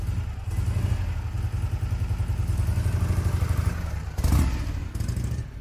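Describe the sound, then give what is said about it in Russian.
A motorcycle engine runs with a steady, throbbing low chug and some clatter, swelling briefly louder near the end. “Он сел в мотоцикл и уехал.”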